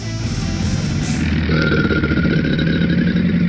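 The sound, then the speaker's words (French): A low, guttural alligator growl rumbles continuously, rough and engine-like, much like a motorcycle idling. Loud and steady throughout, it is heard alone without talk. “J'en ai d'autres, hein, des sons d'alligators.”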